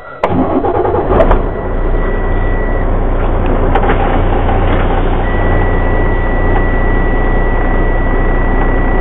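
A loaded LTL delivery truck carrying gas valves pulls out on a Phoenix, Arizona run. Its engine gives a loud, steady rumble throughout, with a sharp clunk near the start and a thin, sustained high tone in places.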